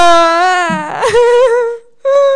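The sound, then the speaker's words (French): A person crying in an exaggerated way, with long, loud wailing tones that waver and break into sobbing in the middle, then a short silence before one last wail. “c'est toujours la même chose avec toi. Tu pleures tout le temps.”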